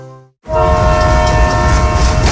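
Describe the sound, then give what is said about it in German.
A train horn blasts loud and steady as a train on a regional railway in South Tyrol rolls past. The sustained harmonic tone rides over continuous rail rumble right after a brief sound cuts off. “Seit 120 Jahren verbindet die Finschka Bahn Menschen, Orte und Geschichten.”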